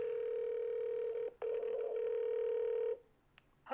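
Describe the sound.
A telephone line tone sounds as a live phone call is placed: a steady mid-pitched tone, briefly interrupted once, then cutting off before a short burst at the end.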